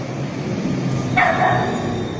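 A dog behind a closed door gives a single bark after the doorbell is rung, a short tonal yelp standing out against a steady low background hum.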